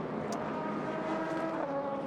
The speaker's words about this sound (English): So the 74 Riley Motorsports LMP3 gets back going again.